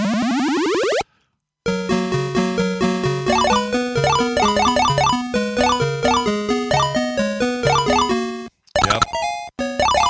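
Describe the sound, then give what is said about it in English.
Frogger arcade video game sound effects during successful play: a warbling rising sweep, a short silence, then a bouncy electronic tune of repeated beeping notes, followed after a brief gap by a jumbled burst of electronic tones. “That's a bunch of successful frogging. That's how you know you're successful at Frogger, if you hear all this noise.”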